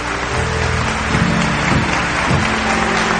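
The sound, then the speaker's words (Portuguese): Congregation applauding at a Catholic mass after the scripture reading, a dense, steady wash of clapping that stays loud and even throughout with no voices over it. “Isso, aplauda a palavra de Deus. Pode aplaudir mais forte, meu irmão.”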